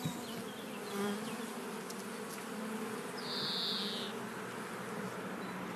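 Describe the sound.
Honeybees flying around a hive with ripe honey sealed in wax, a faint steady droning hum that swells louder as a bee passes close, with no talk.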